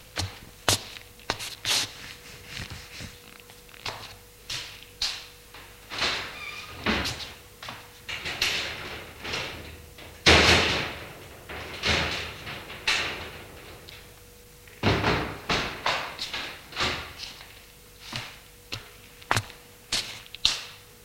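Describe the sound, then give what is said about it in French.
Curtains being drawn open and window shutters being closed in a bedroom give many sharp swishes, knocks and clacks in irregular bursts, over a faint steady hum. “Lui va ouvrir les rideaux et fermer les volets.”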